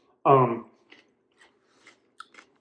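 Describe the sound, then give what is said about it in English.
Chewing while eating: a brief vocal sound, then a few faint, sporadic crunchy clicks and soft mouth noises spaced out irregularly. “I'm eating. One of the things you guys will probably notice is I tend to eat and write.”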